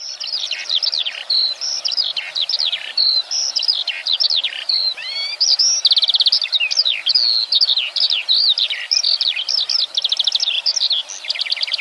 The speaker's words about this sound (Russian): Жаворонок.